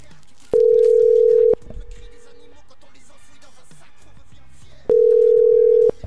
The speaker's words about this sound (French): on va lancer l'appel. Ça va sonner. Et ça sonne.